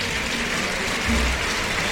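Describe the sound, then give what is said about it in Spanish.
Bullfight crowd giving an ovation to bullfighter Juan Ortega after his dedication to Curro Romero: a thick, continuous wash of clapping and crowd noise, steady and loud throughout. “Ovación para Juan Ortega, que ha recogido la montera tras el brindis a Curro Romero.”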